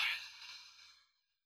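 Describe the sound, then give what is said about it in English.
A slow, soft breath out through the nose during a guided relaxation exercise, one faint, airy exhale that fades away over about a second. “Take a deep, long breath in through your nose. And a slow, long breath out through your nose.”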